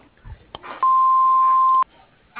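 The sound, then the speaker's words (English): An answering machine gives a single steady beep. The clear mid-pitched tone lasts about a second and stands out loudly against faint line noise before and after it. “message after the beep”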